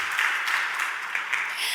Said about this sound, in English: We have time for applause.